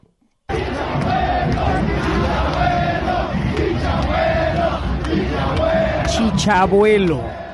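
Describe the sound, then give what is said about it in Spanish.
A stadium crowd shouts at footballer Javier 'Chicharito' Hernández, a loud, sustained chant of massed voices that bursts in suddenly and holds steady throughout. “Y escuchen cómo le gritaban a Javier, el Chicharito Hernández.”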